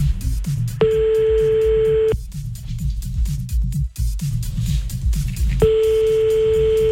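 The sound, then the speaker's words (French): Telephone tones sound while a call is being placed: two long, steady electronic tones, each lasting over a second, separated by a pause and heard over a busy, continuous background sound. “On y va, on appelle Coralie.”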